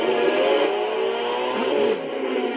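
A drag race car engine roars loudly and steadily, with a brief shift in pitch near the end.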